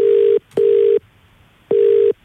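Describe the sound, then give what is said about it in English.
A telephone ringback tone plays as a radio station in Central Victoria, Australia, calls a contest winner. A steady electronic buzzing tone pulses in a double-ring rhythm, two pulses, a pause, then a third, loud and with no voices. “It is now time to call the winner of the Kia 3.”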